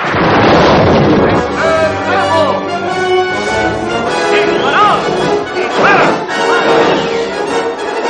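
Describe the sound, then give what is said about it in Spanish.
Loud, sustained crashing and splintering as a Roman consular war galley rams an enemy galley and smashes the oars along one side, with dense, heavy impact noise lasting the whole stretch. “La nave consular avanza contra una galera enemiga a la que destroza los remos de un lateral.”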